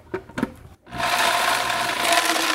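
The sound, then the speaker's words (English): A blender pulverizing a handful of almonds and pine nuts: a few short knocks, then a loud, steady whirring grind of the motor that continues to the end. “I'm going to pulverize the almonds and the pine nuts. Maybe just a handful of each.”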